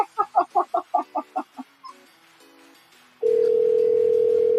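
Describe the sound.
Telephone call tones on a prank call: a quick run of short, pulsed, clucking-like bursts, then a few brief tones, then a loud, steady, unbroken tone that holds to the end.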